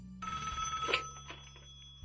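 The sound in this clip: A telephone rings for an incoming call from a waiting caller, a single bright, trilling ring burst that starts abruptly and then fades, fairly faint overall.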